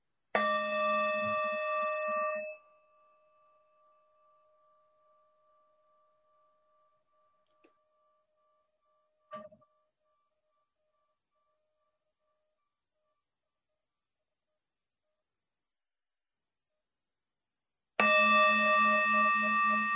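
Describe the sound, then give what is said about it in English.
A singing bowl rings out alone, struck twice: the first strike gives a bright, layered tone with several steady overtones that slowly fade into a long thin hum, and a second full-bodied strike sounds near the end. “allow the sound of this bowl to assist you in just slowing down.”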